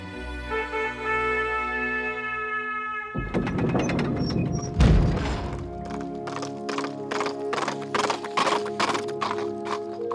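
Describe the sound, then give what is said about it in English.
Hooves of a white horse carrying an armored knight gallop into a courtyard: after a quieter opening, many rapid, hollow clip-clop thuds pound on in an uneven running rhythm. “a strange knight galloped into the courtyard, dressed in a white tunic over silver armor. His steed was white too, pure as milk.”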